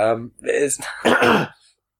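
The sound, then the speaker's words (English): A smoker clearing the throat: several rough, voiced rasps and hacks in quick succession over about two seconds, fairly loud and alone. “I can't clear my throat because I'm a terrible person who smokes.”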